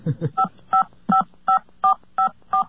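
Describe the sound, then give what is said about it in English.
Telephone touch-tone dialing: a series of short, bright keypad beeps sounding one after another at a steady, even pace, each tone clipped and distinct. “why don't you, do all the dialing and just walk us through it while you're doing it.”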